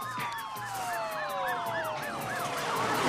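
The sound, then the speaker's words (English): Police car sirens wail as the cars approach, several overlapping tones sweeping rapidly up and down in a steady repeating cycle, loud throughout with a low engine rumble beneath. “Police cars are approaching the scene as Raoul punches Dave”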